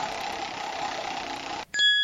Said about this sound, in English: I will spin the Wheel of Fun for you.